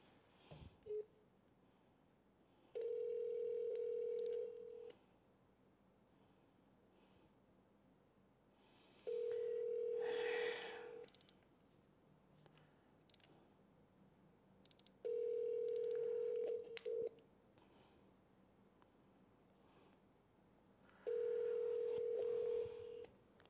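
Ringback tone on a phone line while a call is being placed: four steady, mid-pitched tone bursts, each about two seconds long, separated by longer silent gaps, with no voices.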